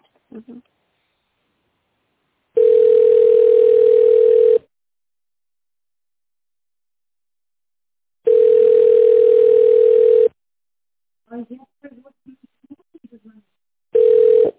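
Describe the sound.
Telephone ringback tone while a call is being transferred: three steady mid-pitched beeps of about two seconds each, separated by long silent gaps, with the last one cut short. Brief speech is heard between the second and third tones.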